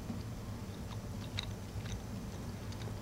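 Tender duck meat from shabu-shabu chewed softly, faint moist clicks and squelches against a low, steady background hum.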